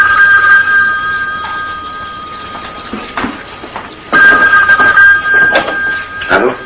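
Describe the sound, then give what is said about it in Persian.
A telephone ringing in two steady, high tonal bursts separated by a pause, with a few sharp knocks and clatters in between. “باز تلفن زنگ میزنه. این بار میره تلفن رو بر میداره.”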